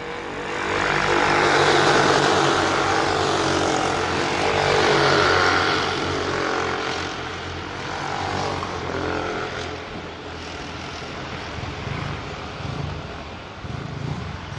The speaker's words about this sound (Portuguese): Já já vamos ter a Fórmula Aldeia na pista. Tá aí os karts de aluguel aqui do Cartódromo Internacional Aldeia da Serra.